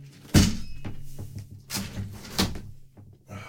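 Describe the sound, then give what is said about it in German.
A window being closed gives a few hollow knocks and thuds, the first the sharpest and loudest, with quieter clunks and rattles between them. “das Fenster zumachen, über dem Haus fliegt da irgendwas und das dröhnt dann”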